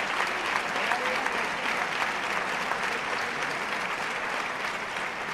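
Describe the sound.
Sustained applause from a bullfight crowd on its feet, a dense, steady roar of clapping held at an even loud level throughout, with no breaks and no single voice standing out.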